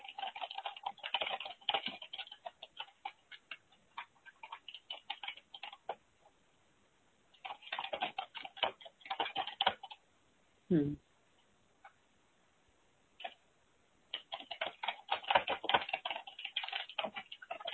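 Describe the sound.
Keyboard typing as text is written out, coming in three bursts of rapid, light clicking separated by short quiet pauses, soft overall.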